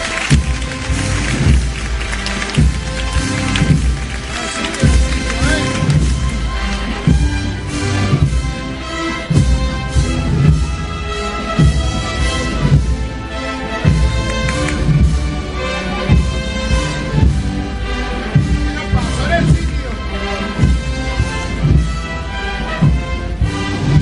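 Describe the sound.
A band plays a processional march at night in the Plaza de Santiago, loud and unbroken throughout, with steady rhythmic beats under dense, sustained tones.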